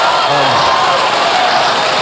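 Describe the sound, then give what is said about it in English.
Audience applause for a guest brought on stage: loud, dense, steady clapping and crowd noise that fills the whole moment. “Give Dan a round of applause.”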